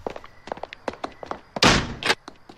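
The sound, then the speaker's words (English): A door being locked: a series of light, quick taps and clicks, then a loud, noisy thunk and clunk that lasts about half a second, with nothing else around it. “He locked the door.”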